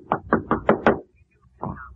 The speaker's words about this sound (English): Wait. There's someone at the door.